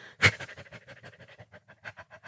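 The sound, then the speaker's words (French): Rapid, short panting breaths from a person imitating a small dog. One sharp, louder breath comes first, followed by many quick, even puffs in a steady rhythm. “À haleter, un petit peu comme un petit chien.”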